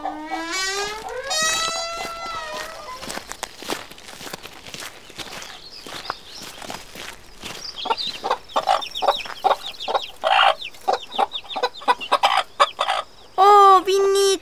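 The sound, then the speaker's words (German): Newly hatched, tiny yellow chicks peep in high, thin chirps while their mother hen clucks and shows them how to find food, with many soft scratching footsteps and pecking sounds throughout. “Die sehen aus wie kleine Wattebäuschen mit Füßen. Und so winzig und gelb. Was machen sie denn da? Sie lassen sich von der Glucke, so nennt sich das Mama-Huhn, zeigen, wie sie Futter finden.”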